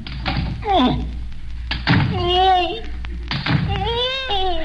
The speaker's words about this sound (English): All I do is plunge these three razor-sharp swords through the basket. Apparently through my assistant.